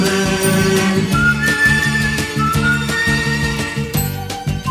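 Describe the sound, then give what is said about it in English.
Whistling carries a bright melody in a radio station jingle, sustained and tuneful above steady, bouncy backing music and chiming accents throughout. “Whistle everywhere you go with the happy sound of KCKN. Whistling, whistling, we'll keep you”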